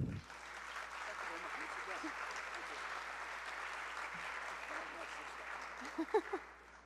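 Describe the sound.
Applause from an audience welcoming an author to an event, a fairly soft, steady patter of clapping with a few louder claps near the end as a voice begins.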